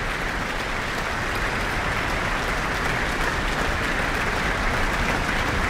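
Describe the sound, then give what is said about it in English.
Audience and orchestra applaud a soloist taking another bow with the guest conductor after a Mozart concert: dense, sustained clapping that holds at a steady, even level throughout, with no voices over it. “He's just taken another bow. And with audience and orchestra applauding, he's back on the stage with our guest conductor tonight, Sami Rachid.”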